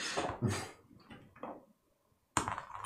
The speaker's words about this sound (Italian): Possiamo semplicemente provare a aprire? Non so, c'è tipo una grappa, provo tipo a, fare, a tirare la porta? Volendo, sì. Ah, provo a tirarla, non ci riesco